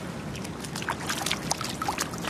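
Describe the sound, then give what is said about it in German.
Soft water sloshing and trickling as a foot dips into the water of Berlin's outdoor Prinzenbad swimming pool on 1 May, with continuous low splashing dotted by small, bright droplet ticks. “Man muss am Anfang erstmal einen Fuß ins Wasser stecken, um zu gucken.”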